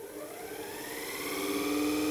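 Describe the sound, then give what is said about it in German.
An electric motor is switched on in a physics demonstration, braked by a leather strap held by spring balances. It spins up with a steady whine of stacked tones that slowly climb in pitch and grow louder, with no talk. “Und um die Leistung des Elektromotors nun zu bestimmen, schalten wir ihn ein.”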